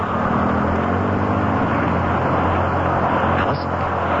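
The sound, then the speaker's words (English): Inside a city bus, a steady, loud low rumble and droning engine hum runs throughout without pause. “Step to the rear of the bus, please.”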